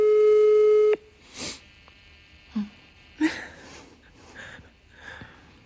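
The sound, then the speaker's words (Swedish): An unanswered telephone ring: one steady, buzzing tone for about a second breaks off abruptly, followed by a few soft breathy, sniffing noises over a quiet hiss. “Svara då. Fan så irriterande. Ring igen, det kan ju ha hänt något.”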